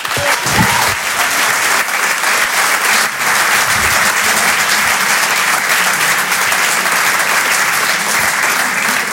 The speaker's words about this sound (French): Faites du bruit, s'il vous plaît, pour Jérémy Lorca.